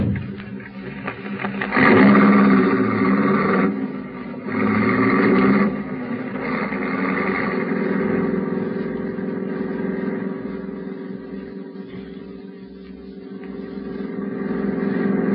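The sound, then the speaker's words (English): A car is being driven fast, its engine making a continuous mid-pitched drone. Two louder surges come in the first few seconds, then the engine settles into a steadier hum that dips briefly before rising again, with no voices. “I hope you don't mind me driving so fast. I'm in a terrible hurry.”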